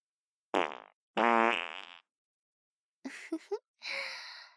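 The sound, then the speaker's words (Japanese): Mouth-made fart sounds puff in from the left: two long buzzing blasts, then a quick sputtering run of three short bursts and a final breathy hiss, each separated by silence. “また、臭いおなら、出ちゃいますよ。左から、失礼しますね。”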